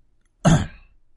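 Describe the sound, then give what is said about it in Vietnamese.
An older man clears his throat gravely, one short rough burst that cuts off quickly, alone with no talk around it. “hắng giọng nghiêm trọng”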